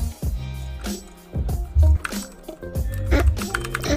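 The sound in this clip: Typing a chat message on a computer keyboard during a game stream, a fast run of sharp plastic key clicks and taps, some heavier strikes, over steady background tones.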